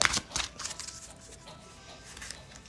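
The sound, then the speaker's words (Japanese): A card is drawn from a deck of friend cards: a few quick, crisp papery snaps and rustles at the start, then the handling fades to faint, light shuffling. “はい、そんな行動するためのカード、はい、友人カードで引いていきます。”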